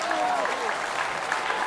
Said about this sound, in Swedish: Alltså en varm jävla applåd. Klipp in en varm jävla applåd, ja.